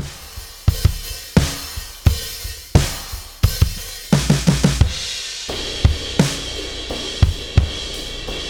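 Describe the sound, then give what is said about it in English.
A big rock drum kit captured with room mics turned up and lots of room air. Punchy kick and snare hits keep a steady beat, with a busier fill midway, and each hit rings out. No voices. “So this is the bigger kit with lots of all the room mics turned up, lots of air in the room.”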